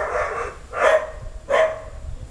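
A dog barking: two loud, sharp barks spaced under a second apart stand out over a low, rough background, with fainter sound in between.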